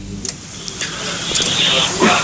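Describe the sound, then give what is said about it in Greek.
Aerosol air freshener sprays in a steady, breathy hiss that builds over a couple of seconds, with a voice present alongside it. “Νάτος ήρθε, έρχεται, ψεκάζει με φρεσέρ.”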